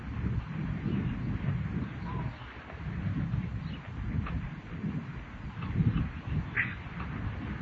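Wind blowing across a microphone: a heavy, rumbling low roar that surges and eases unevenly for several seconds, with no speech.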